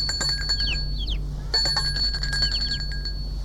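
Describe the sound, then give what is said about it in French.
A bell rung at a garden gate gives bright, high ringing tones in two bursts separated by a short pause, each burst made of several quick, chiming strikes. “Un après-midi, l'on sonne au portail.”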